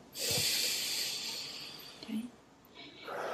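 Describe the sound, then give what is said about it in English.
A person takes a deep breath during a guided group exercise: a long, airy inhale lasting about two seconds, easing off before a second, quieter breath begins near the end. “And everybody take a breath.”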